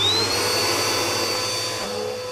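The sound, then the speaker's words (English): A vacuum cleaner runs alone while sucking up spilled chocolate-frosted donut crumbs. Its loud, steady motor whine climbs in pitch over the first half second, then holds and eases slightly. “Can you guess what that noise is? Why, it's a vacuum. And why am I vacuuming? Because I spilled chocolate-frosted donut crumbs everywhere.”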